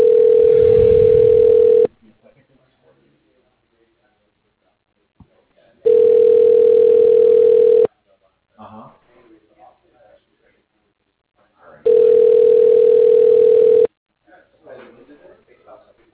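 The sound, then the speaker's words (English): Telephone line tones play during a call transfer: three long, loud, steady tone bursts of about two seconds each, evenly spaced and separated by quiet gaps that hold faint scattered noises. “Please hold while I transfer your call.”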